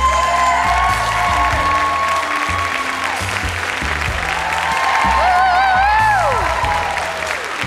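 Applause from an audience welcoming two guests to the stage, a dense, steady wash of clapping that holds at a fairly loud level throughout, with tonal sounds running beneath it.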